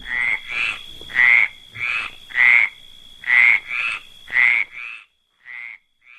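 A frog croaks in a regular series of about ten short, bright, nasal calls with brief gaps between them, some louder than others, heard alone with no other sound.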